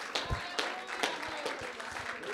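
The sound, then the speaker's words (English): Congregation clapping hands in praise during a church service: a dense, steady patter of many hands with a few sharper accented claps standing out. “Why don't we give a big hand clap of praise unto the Lord God Almighty.”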